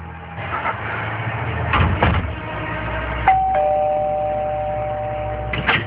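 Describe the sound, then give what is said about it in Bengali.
A doorbell rings at night with a two-tone ding-dong, a higher chime followed at once by a lower one, both ringing out for about two seconds over a low rumbling background, after a couple of muffled thuds. “K K calling bell বাজালো?”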